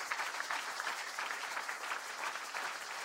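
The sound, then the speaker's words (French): An audience applauds together at a gathering, a dense, even patter of many hands clapping at fairly low volume, continuous from start to end. “Est-ce qu'on peut saluer ces parents-là? Est-ce qu'on peut les saluer? Est-ce qu'on peut les acclamer?”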